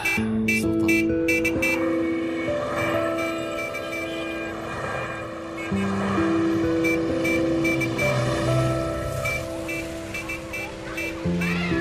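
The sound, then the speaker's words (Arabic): A wedding car's melodic horn carrying the groom and bride. It toots a continuous run of loud, sustained tones that step between pitches like a tune and keep going throughout. “كبيس الزمور، سمعنا صوت الزمور الحلو.”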